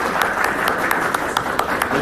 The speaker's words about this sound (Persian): واسه گروه اول دست بزنید تو واسه شما دست بزنید.